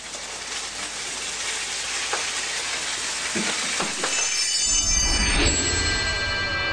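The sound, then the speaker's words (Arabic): Steady, hissing sizzle of flour-coated chicken frying in oil, a dense crackling texture that holds even throughout and swells slightly toward the end. “والفراخ عندي مغسوله وجاهزه بتبلها كده في الدقيق الجميل ده بالشكل ده دكتور، وبجيب زيت وبحمر فيه الفراخ بالشكل ده.”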